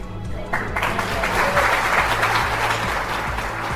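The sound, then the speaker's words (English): Sustained applause from a panel of judges after student entrepreneurs pitch their venture, starting softly, then swelling after the first half second into a dense, steady patter of clapping that holds at an even loudness to the end. “Judges, your clap is”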